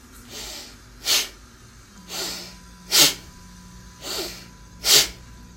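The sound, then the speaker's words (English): Three sharp nasal breaths, in and out through the nose, give six quick airy bursts. Softer inhales alternate with sharper, louder exhales in an even rhythm over a faint steady hum. “Now, 3 sharp nasal breaths in and out of the nose.”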